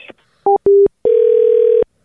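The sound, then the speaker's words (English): Telephone line tones play while placing a call back: a short two-tone beep, then a slightly longer steady beep, then a long sustained tone, all loud and clean with no talk over them. “we're gonna try and call this guy back”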